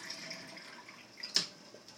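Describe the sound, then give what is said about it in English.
Water runs from a tap into a water bottle, a faint, steady trickle with one brief, brighter splash partway through. “I'm just getting Sean's water bottle filled up. That's the sound you're hearing there.”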